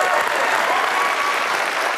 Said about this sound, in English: And as the applause fades down, I tell you, though, get the hands ready to clap again.